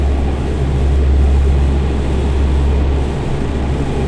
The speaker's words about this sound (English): Co set takeoff power as I direct. Rolling. Torque 5,000.